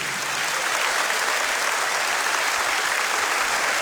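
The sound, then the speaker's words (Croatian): Applause for an orchestra at a concert in Istria and Kvarner: dense, even clapping from a crowd that holds steady at a constant level for the whole stretch, with no voices standing out. “Hvala lipa, aplauz za najbolju orkestar na Istri i Kvarneru.”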